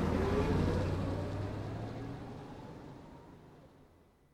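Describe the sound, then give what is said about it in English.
Taxi cab pulling away, a low engine rumble that starts fairly strong and fades steadily over about four seconds until it is nearly gone. “Don turns round and looks at the young man through the rear window as the cab pulls away.”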